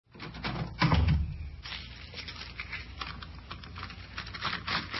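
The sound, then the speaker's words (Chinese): A door is opened, with a clattering rattle of the latch and handle near the start. A lower, scuffing rustle continues steadily afterwards. “好，我就来开门啊。进来吧。”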